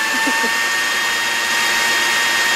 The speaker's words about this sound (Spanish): vamos a la licuadora a tirar el último